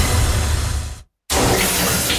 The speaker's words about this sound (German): Dusche eiskalt.